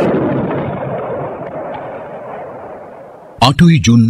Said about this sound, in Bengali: যুদ্ধক্ষেত্রে যোদ্ধা এসে পৌঁছল। তারপর হল বিস্ফোরণ।